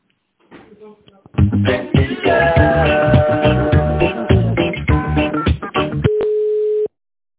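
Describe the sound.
Telephone line tones play while a call to a company is being transferred: a loud burst of busy, melodic tones runs for several seconds, then a single steady beep holds briefly before cutting off.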